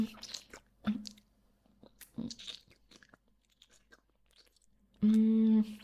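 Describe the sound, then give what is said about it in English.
Someone chews food while tasting it, making soft, wet, irregular clicks and crunches, then a brief steady buzzing tone near the end. “Hang on. I gotta taste every inch. I need to make sure, you know.”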